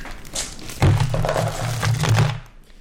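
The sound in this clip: Dice rolled for damage on a table in a tabletop game: a sharp thump followed by a rattling, clattering tumble of about two seconds that then settles into quiet.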